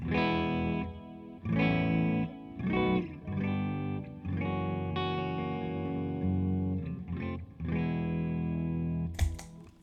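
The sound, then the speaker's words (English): Clean, dry electric guitar tone from a humbucker guitar set to the middle pickup position, played as a series of ringing chords and notes with sustained harmonics, each attack fading before the next. “Let's hear it clean first. All right, which pickup? Middle. Let's go middle position. Ooh, to give look it the at bear. You. Here's our dry tone since we haven't heard this guitar.”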